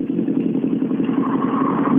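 A rally car rolls on past the finish, its engine a steady, rough low hum that holds a constant level throughout with no clear revving.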